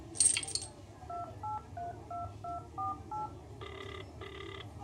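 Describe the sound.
Keypad tones as a telephone number is dialed from an office phone: a short noisy burst, then a quick run of brief, evenly spaced beeps, followed by two longer, higher tones.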